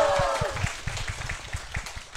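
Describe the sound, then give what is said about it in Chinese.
Audience applause at a live show in Chengdu: steady, moderate clapping from a crowd, with a voice exclaiming over it at the start. “哎，有人鼓掌，哎呦”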